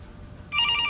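A telephone rings with an incoming call. The bright electronic ring of steady, layered high tones starts halfway through, stays loud to the end, and sits over a low background rumble.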